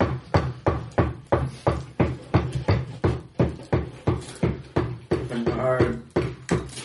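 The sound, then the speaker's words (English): Steady knocking at a door: many evenly spaced, sharp raps repeat at a constant brisk rhythm, each one clear and loud, with no voices over them. “someone is knocking at your door. And it's just kind of a steady,”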